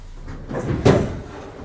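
A cupboard opened to take out a Native American flute, making a single short knock and rub of the door that peaks just under a second in, with faint rustling around it.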